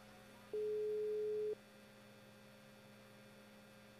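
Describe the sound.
A single steady telephone ringback tone, about one second long, sounds after a call is dialed, then stops, leaving only a faint low mains hum underneath.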